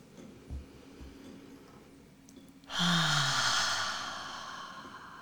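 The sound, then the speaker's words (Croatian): A deep breath taken during a guided breathing exercise, with a quiet inhale and then a long, breathy exhale through the mouth that fades out over about two seconds, heard alone. “Duboki udah na nos, izdah na usta.”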